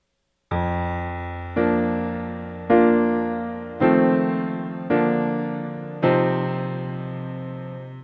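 Piano playing the intro of a piece, left hand striking the F below middle C under right-hand arpeggios with the sustain pedal down; six struck notes or chords, each ringing out and slowly decaying, with rich overtones and no voices.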